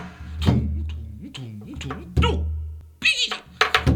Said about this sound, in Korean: 한방중에 살금살금 너는요 도둑고양이 야옹